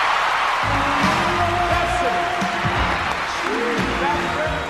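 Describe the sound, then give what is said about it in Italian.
Applause and cheering from the audience at the 1987 Grammy Awards ceremony: a dense, steady roar of clapping with shouting voices and whoops running unbroken through the whole stretch. “Sentito che applauso? Ancor prima di pronunciare il suo nome, il pubblico dei Grammy Award del 1987 urla a gran voce il nome della vincitrice.”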